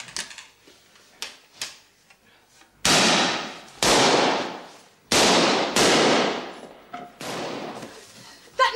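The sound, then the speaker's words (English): Gunshots fired in a great hall ring out as a rapid series of sharp, loud cracks, each trailing off in a long, echoing decay. A few fainter pops come before and after the main volley. “Shooting. More tomfoolery.”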